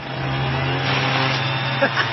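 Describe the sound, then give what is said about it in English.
Steady roar of a HomeLight Mighty Light blower vac, a leaf blower working in vacuum mode and chopping leaves into tiny bits, with a low motor hum throughout and two brief rattles near the end. “My new leaf blower is also a vacuum. Huh. Watch it chop these leaves into tiny little bits.”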